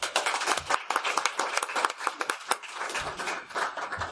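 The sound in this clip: An audience applauds to welcome speakers to the podium at an academic panel, a steady wash of many hands clapping that continues at a fairly even level throughout, with no voices above it.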